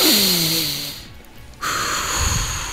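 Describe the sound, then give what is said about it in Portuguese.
A person demonstrating a slow, deep breath in: a long, loud, breathy rush of air that dips briefly partway through, then resumes as steadily as before. “E o exemplo que eu gosto de dar é o exemplo da nossa respiração. Por quê? É, a gente sempre busca respirar muito quando a gente está estressado, nervoso.”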